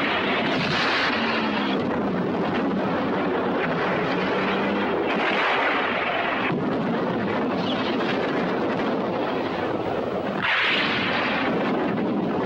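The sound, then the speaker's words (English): In a war drama, missiles and intense fire strike German troops. Deep, continuous rumbling is broken by a few louder roaring bursts, and there is no speech over it. “Missiles rain down on the German troops.”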